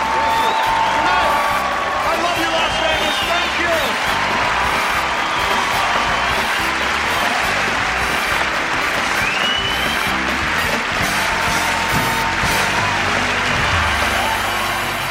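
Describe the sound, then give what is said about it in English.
Loud audience applause and cheering at a show, mixed with whoops and high whistle-like calls. The dense clapping stays strong and continuous for the full length, with excited crowd voices woven through it. “And a big round of applause.”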